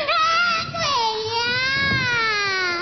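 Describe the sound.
A frightened child crying: one long, loud, continuous wail whose pitch wavers up and down throughout, with no talking.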